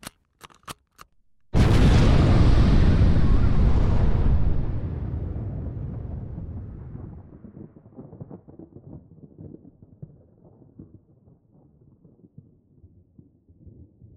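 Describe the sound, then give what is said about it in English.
Nuclear bombs detonating to destroy a comet: a sudden massive roaring blast that stays loud for a few seconds, then slowly decays into a long crackling, rumbling tail, preceded by a few faint clicks. “Nukes are set and ready to blow. We have to get out of blast range.”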